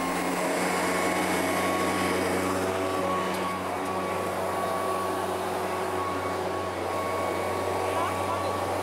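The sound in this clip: A blower (Püster) clears debris such as peanut shells off rock with a steady roaring hiss over a low motor hum, continuous throughout, and a voice speaking over it.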